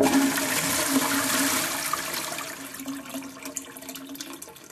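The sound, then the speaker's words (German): A toilet flushes in a bathroom with a loud, steady rush of water that fades after about two seconds into a softer, uneven trickle of the tank refilling. No voices are heard. “Deswegen kurz, kurz spülen. Spülpause.”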